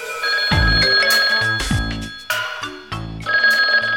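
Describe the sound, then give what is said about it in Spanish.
A telephone rings loudly with repeated bright, tonal ring bursts separated by short gaps. “ya tenemos una llamada telefónica”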